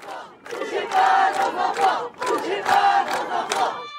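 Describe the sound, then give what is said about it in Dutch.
A protest crowd chants in unison at a Sunday-afternoon demonstration against the EVRAS sex-education programme in central Brussels: two long, loud chanted phrases split by a brief break. “Ja, dit zijn opnames die ik zondagmiddag gemaakt heb in Brussel Centrum op een betoging tegen Evras.”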